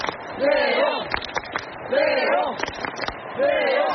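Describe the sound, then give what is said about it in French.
Stadium crowd in the Stade de France stands chanting a name in unison, in three drawn-out sung calls at a steady rhythm with scattered shouts and thumps between them. “il est, vous l'entendez derrière moi, acclamé par les tribunes.”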